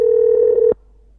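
A single steady telephone tone while calling a room and reaching voicemail, held evenly for under a second and then cut off abruptly, leaving near silence.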